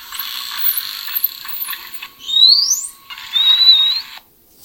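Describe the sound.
A dolphin's signature whistle: two brief high whistles, the first sweeping sharply upward and the second flatter, over a steady hiss with faint clicking.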